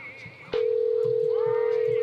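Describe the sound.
A single steady telephone tone from a call going through to voicemail cuts in after a brief faint stretch and holds unbroken and level to the end.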